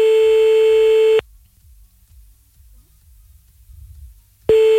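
French telephone line tone heard while calling someone back after a dropped call: a steady mid-pitched tone for about a second, roughly three seconds of near silence, then the same tone starting again.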